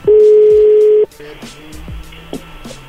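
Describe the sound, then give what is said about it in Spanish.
A steady telephone dial tone holds for about a second during a sales call, then cuts off to quieter line noise with a few brief tones as the number is dialed again. “Márcale, brody. A ver, ahí se está marcando de nuevo.”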